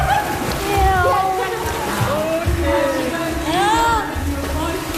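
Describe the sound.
Water sloshing and splashing as someone enters a swimming pool, a steady watery wash running throughout with voices talking over it.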